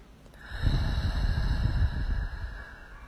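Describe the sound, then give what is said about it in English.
A single long, deep breath, a low rushing exhalation of about two seconds, rising and fading softly over a faint steady tonal hum. “Just taking a deep breath right here.”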